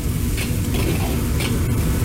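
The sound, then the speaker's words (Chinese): Steady sizzling of chopped garlic stir-fried in oil with red Sichuan peppercorns and cut dried chili segments over low heat, with an even crackle and a few brief scraping stirs. “辣椒爆香之后，加入剁好的大蒜爆香，”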